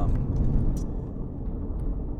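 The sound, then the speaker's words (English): Steady road rumble of a car barreling down the 101 South freeway in Los Angeles: a continuous low roar with faint tire hiss that holds even throughout, with no voices. “Barreling down the freeway. Driving in Los Angeles. Barreling down 101 South.”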